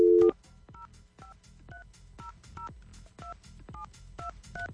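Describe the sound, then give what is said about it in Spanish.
A telephone number being dialed on a keypad: a brief loud tone opens, then a quick, even series of short two-tone beeps, each with a soft click. “Vamos a marcar ya.”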